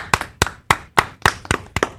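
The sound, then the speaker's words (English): A soft, polite golf clap: about eight sharp, evenly spaced claps at a slow, steady pace, fairly quiet and sparse, with no voices over them. “Thanks for the golf clap, guys.”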